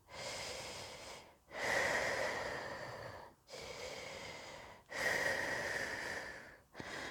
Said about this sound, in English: Literally, just breathe with me.